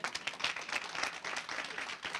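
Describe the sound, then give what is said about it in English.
Audience clapping hands in a steady, dense patter of applause that holds an even level for the whole short stretch, with no voices standing out. “Give them a hand clap.”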